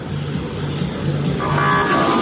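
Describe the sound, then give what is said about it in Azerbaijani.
Car horns from traffic stuck on closed streets sound during a Grand Prix street race, sustained honking tones over a steady, dense roar of engines and road noise that grows louder toward the end. “Yarış maşınlarının səsinə bir də kəsilən küçələrdəki tıxaclarda qalan maşınların siqnal səsləri qarışır.”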